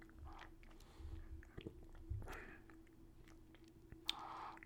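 Chewing on a green apple and cinnamon flavored treat: faint, soft crunches and mouth noises come in a few irregular bursts over steady low background hum, with no talking.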